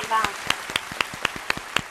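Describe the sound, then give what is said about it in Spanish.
Someone applauds to see off a guest on a Sunday talk show: a steady run of crisp, evenly spaced claps at a brisk pace, with a short voice at the start. “A dar un aplauso para despedirte.”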